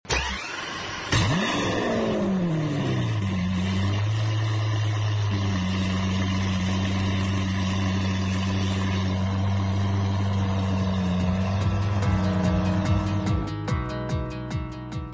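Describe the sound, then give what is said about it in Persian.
A minibus setting off as a sound effect: the engine revs up and then settles into a steady, droning hum with tonal whine, and a fast ticking sets in near the end. “پس اگه آماده هستین سوار مینیبوسمون بشیم، کمربندامون رو ببندیم و حرکت کنیم.”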